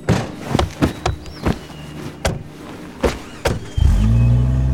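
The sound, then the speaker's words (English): A jeep engine revving up and accelerating in a loud, low roar near the end, preceded by several sharp thumps and clicks spaced irregularly. “The jeep accelerated past the camp.”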